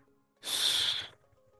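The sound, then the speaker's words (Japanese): A single breath pushed out through the mouth in a slow breathing exercise: one soft, airy hiss lasting under a second, heard alone against near silence. “で、吐くときに鼻から、まあ、これ口で吐いてますけども、”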